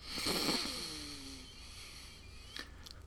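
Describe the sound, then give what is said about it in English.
A slow, deep breath drawn in: a soft, airy hiss that swells at the start and then gradually fades. Quiet overall. “Stop whatever you're doing right now and simply take a slow, deep, deep breath in.”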